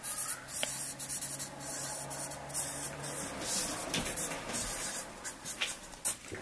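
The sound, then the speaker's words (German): Pen scratching as a book symbol is drawn, a steady soft scraping made of many short strokes with a few sharper taps, heard alone without talk. “So, ich mache da ganz gerne ein Symbol hin. Das Symbol soll ein Buch sein.”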